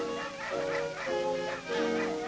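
Hound dogs baying during a hunt, with long, drawn-out mournful howls that rise and fall in pitch. Several bays overlap and follow one another, fairly faint and with no voices.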